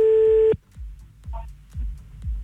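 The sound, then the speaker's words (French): A telephone busy tone sounds after a cut-off call: one steady mid-pitched beep lasting about half a second, then it stops, leaving faint low, regularly spaced thuds. “Oui, je m'excuse, je sais pas ce qui s'est passé, on a encore été coupé.”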